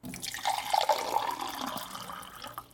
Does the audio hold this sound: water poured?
yes

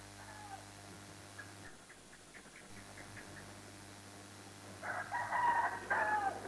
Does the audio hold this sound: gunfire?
no

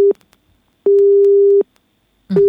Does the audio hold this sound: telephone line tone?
yes

